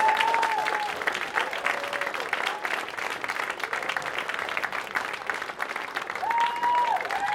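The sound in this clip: Audience applause welcomes the writers and cast of the film A Good Old Fashioned Orgy. It is a dense, steady wash of many hands clapping, sustained evenly for about seven seconds with no break.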